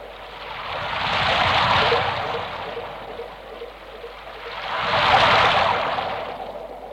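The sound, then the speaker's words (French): Rushing water in a dark place with vaulted walls swells up, fades, then swells again in two slow waves of hissing, washing noise. “Un lieu noir, des murs voûtés, des bruits d'eau, cette étrange sensation sur le dos.”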